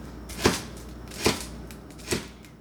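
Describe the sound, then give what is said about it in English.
Knife chopping green onion, coriander and garlic on a board for hot pot: three crisp, evenly spaced chops, moderately quiet, with no voices. “We also need to cut green onion, coriander, and garlic.”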